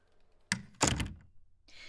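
A door is shut with a dull, quiet thunk made of two close impacts, followed by faint soft noise.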